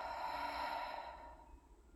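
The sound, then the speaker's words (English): A long, soft exhale during guided breathing: a steady, breathy hiss that starts fairly full and gradually fades over about two seconds, with no talk. “Let's go ahead and take a nice deep breath in. And exhale, let it go.”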